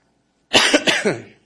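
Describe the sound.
A man coughs from something caught in his throat: a quick run of several harsh, throaty bursts that starts abruptly and trails off, alone without talk.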